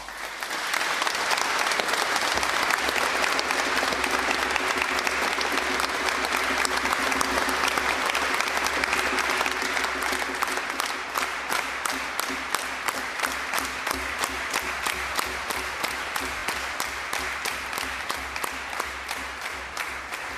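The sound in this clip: Catholic pilgrims applaud in a long burst of clapping from many hands. It starts as a dense, even roar, then settles into rhythmic clapping in unison that continues to the end.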